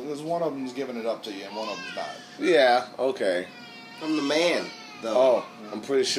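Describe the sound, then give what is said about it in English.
A young child cries in the background, with a few high, whining wails rising and falling beneath a steady conversation between adults. “And again, you can hear my damn kid crying.”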